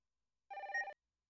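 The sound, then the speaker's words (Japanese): A telephone rings once with an incoming call: one short, bright electronic ring tone with a slight warble, sounding alone against silence. “そうだった、お店に連絡するの忘れてかかってきちゃいました。すみません、ちょっと出ますね。”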